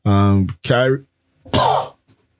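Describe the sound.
Coughing from a person, three short voiced bursts, the first two throaty and tonal, the last rougher and noisier, with brief pauses between them and no talk.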